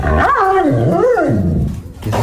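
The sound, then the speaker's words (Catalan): A dog growls loudly, a throaty rumble whose pitch wavers up and down in slow swells for about two seconds with no talk. “És el seu gos.”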